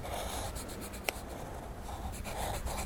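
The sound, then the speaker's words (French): Pencil or pen drawing on paper: soft, steady scratching strokes, quiet throughout, with one brief sharp tick partway through. “Papa, maman, je vous dessine. Vous me tenez compagnie. Mon lit, je te dessine.”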